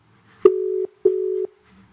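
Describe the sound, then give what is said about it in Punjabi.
Ringback tone of an outgoing telephone call that goes unanswered: two steady, mid-pitched tone bursts of equal length separated by a short gap, then silence, with no voices. “ਚੱਕਿਆ ਨਹੀਂ ਮੁੰਡੇ ਨੇ phone ਦੁਬਾਰਾ ਕਰੀਏ”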